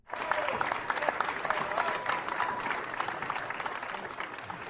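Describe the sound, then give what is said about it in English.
Standing-ovation applause from a large crowd welcoming Rod Carew to the stage at Twins Fest: dense, loud, steady clapping with crowd noise that holds throughout and eases slightly near the end. “standing ovation, the only way to welcome Rodney to the stage”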